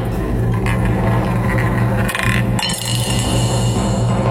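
Balls tumble and rattle inside a spinning lottery wheel, a loud, continuous clatter of clinking and rolling that holds steady throughout.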